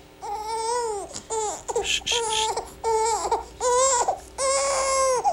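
A baby cries in many repeated wailing bursts, each a loud, high, strained cry that swells and breaks off before the next begins.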